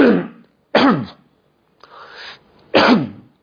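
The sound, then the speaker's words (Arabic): Coughs and throat clearing from a speaker with a muffled voice: three loud, harsh bursts spaced across a few seconds, with a fainter, breathier rasp between the second and third. “أنا آسف معلش في سعلة كده مخلي صوتي مكتوم فتحملوني بعتذر.”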